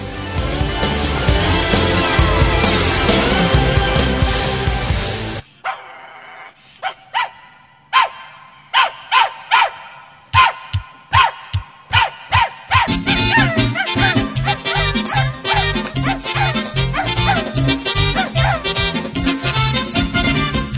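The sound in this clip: A dog barks in a sparse run of many sharp, evenly spaced barks, with denser, louder continuous sound before and after.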